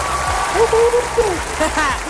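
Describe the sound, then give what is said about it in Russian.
Applause rises as a soft, continuous wash of clapping beneath a voice, steady and fairly even in loudness across the whole stretch. “Эти аплодисменты посвящаются тебе.”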